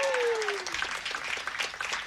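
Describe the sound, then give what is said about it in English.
A crowd applauding jazz musicians at a live concert, after the drummer is introduced. Dense, even clapping holds steady throughout, and a fading tone falls away at the start. “How about a round of applause for Bill Stewart on the drums, the great Bill Stewart.”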